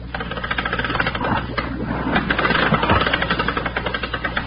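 A winch runs with a loud, continuous mechanical chugging, a rapid even rattle that keeps going throughout.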